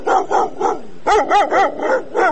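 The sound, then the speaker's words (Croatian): Stray dogs living in packs on city streets bark in loud, rapid, repeated bursts, a steady volley of many sharp barks with no talk over them. “Već godinama napušteni psi žive na ulicama Sarajeva, lutaju u čoporima, često gladni i zbog toga agresivni, svakodnevno napadaju ljude.”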